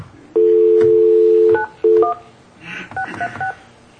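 A telephone dial tone hums steadily for over a second before a few touch-tone keypad beeps follow as a number is dialed, ending in a quick run of quieter button tones.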